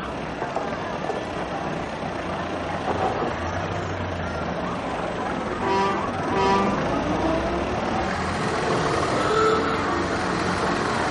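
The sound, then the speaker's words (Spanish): A red car drives onto a docked ferry, its engine giving a steady rumbling road noise that swells slightly toward the end, with a few brief tonal sounds in the middle. “Ellos se apean y se cruzan con un coche rojo que penetra en el barco.”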